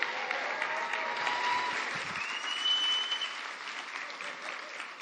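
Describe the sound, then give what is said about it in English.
Applause from a church audience welcoming a speaker to the stage, with steady, sustained clapping that fills the whole clip without a break. “Put your hands together and welcome Carrie.”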